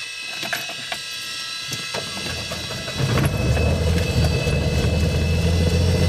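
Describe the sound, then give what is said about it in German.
A six-cylinder, 230 hp, 8-litre aircraft piston engine runs with a steady mechanical drone that surges about halfway through into a louder, deeper rumble, which then holds steady to the end. “Das sind 6 Zylinder, 230 PS. Da geht was. Da geht was. Bei 8 Liter Hubraum.”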